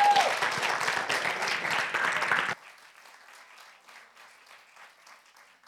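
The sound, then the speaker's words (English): Audience applause for a speaker coming on stage: dense, loud clapping that keeps going for a couple of seconds, then drops abruptly to a faint, scattered patter. “Give her a big hand. Please, please.”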